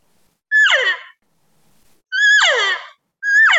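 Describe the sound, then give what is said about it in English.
A voice imitates a cow call, an 'ee-yaw' made with a smile and a dropped jaw. Three loud, separate calls each slide sharply down in pitch, and the last is cut off. “So the right way to do it is to smile and go,”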